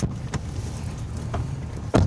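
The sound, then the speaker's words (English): A car drives on a dirt road through a vast field in eastern Ukraine, making a steady, low rumbling drone with a few brief bumps and rattles, and a heavier jolt near the end. “We're driving on a dirt road deep into a vast field that's somewhere in eastern Ukraine.”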